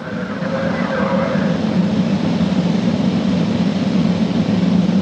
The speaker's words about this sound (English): First stage engine functioning normally. These thrusters operating nominally. The Soyuz booster arcing out to the northeast from the Baikonur Cosmodrome.